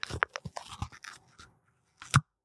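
The pull tab of a matcha iced tea can is opened. A run of soft clicks and handling noises is followed, after a brief pause, by one sharp, louder crack.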